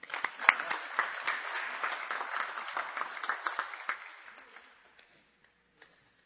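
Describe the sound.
Applause from a Community Baptist Church audience welcoming a guest reverend: dense, sustained clapping with sharper individual claps that thins out and fades to silence after about five seconds.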